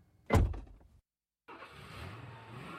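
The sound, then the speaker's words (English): A car pulling away: a single heavy thump, then a brief silence, then a steady, low engine drone that holds at a moderate level until the end. “As he drove away”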